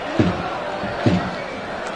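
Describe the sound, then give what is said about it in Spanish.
Football stadium crowd at a Badajoz match jeering a referee's decision, a constant roar with a few sharper surges of shouting. “Ya el público se le echa encima a cualquier decisión arbitral.”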